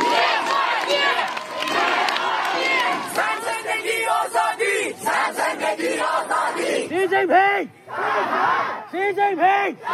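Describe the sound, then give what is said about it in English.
Street protest crowds in Russia, Iran and China chant and shout in a run of loud massed voices. The texture shifts between sections, ending in short, sharply rhythmic chanted bursts separated by brief gaps. “That was the sound of protests in Russia, Iran, and most recently, China.”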